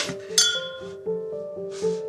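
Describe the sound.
Sekt glasses clinking together in a toast, a quick series of light, bright clinks with clear ringing tones that sustain between strikes, heard alone without talk.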